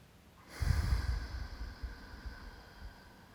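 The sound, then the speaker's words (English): Slow, full, deep breaths taken during a guided breathing exercise: one long, airy rush of breath that begins sharply, then gradually fades to a soft, steady hiss. “I invite you to take some nice, full, deep breaths.”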